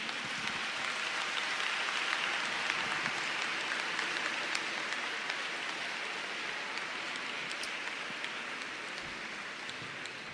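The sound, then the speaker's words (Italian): Applause from a church audience for choirs at a choral gathering, a soft, even patter like rain that holds steadily for about ten seconds and thins slightly toward the end. “Un bel applauso per favore anche a loro.”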